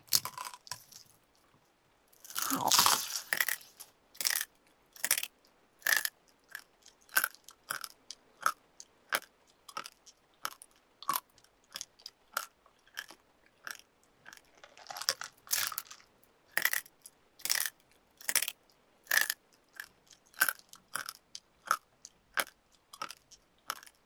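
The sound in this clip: Crisp biting and chewing sounds from someone eating, many sharp crunchy bites in an uneven rhythm, with a dense louder flurry near the start and another around the middle, with no talking.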